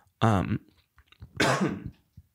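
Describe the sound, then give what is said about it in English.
Coughing and throat clearing after a hit from a vape pen: two rough, raspy bursts, the first harsher and more voiced, the second breathier, with a brief pause between them and no talk. “sorry, I just took a hit of my pen and it's residually scratching the old throat.”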